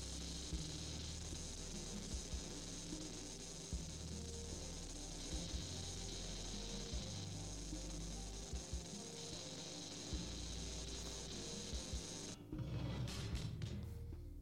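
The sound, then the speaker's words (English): A metal cutting machine runs with a faint, steady mechanical drone and hum, broken by light rasping clicks at irregular intervals, its tone shifting and roughening near the end. “Welding. It's a metal cutter.”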